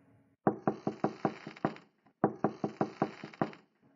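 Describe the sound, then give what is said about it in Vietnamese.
Knocks on a bedroom door at a late hour come in two quick bursts. Each burst has about six or seven sharp, even raps, and a brief silence separates them. “ai gõ cửa giờ này?”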